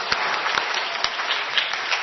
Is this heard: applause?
yes